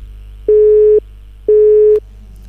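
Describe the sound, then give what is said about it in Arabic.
A busy signal sounds after a phone call cuts off: two steady mid-pitched tones of about half a second each, separated by an equal silence, over a low background hum. “انقطعت المكالمة”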